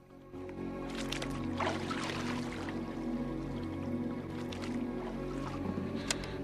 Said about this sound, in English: John's raft bobs gently in the water.